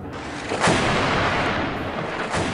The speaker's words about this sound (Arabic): إجا صوت انفجار، على ما يبدو الضربة بعيدة شوي، بس هاد ما بيقلل من شدة الصوت.